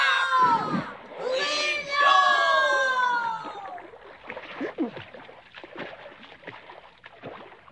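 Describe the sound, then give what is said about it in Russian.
Oars splash as a boat is rowed through thick syrup. Voices cry out at first, then a run of soft, uneven splashing strokes follows at a moderate level. “Мы гребем, стараемся и не с места. Плывем точно в сиропе.”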